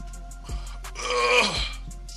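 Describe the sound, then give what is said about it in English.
A person yawns once in a drawn-out, groaning breath that swells to a peak near the middle and then fades, over a low, steady background hum. “That was my yawn.”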